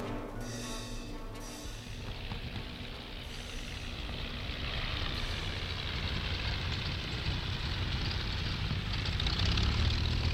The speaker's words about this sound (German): Im vierten Akt landete das Flugzeug am Nordpol.